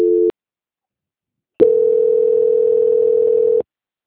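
Telephone line tones during a call transfer: a short beep, a silent pause, then a steady mid-pitched tone held for about two seconds before the line falls silent.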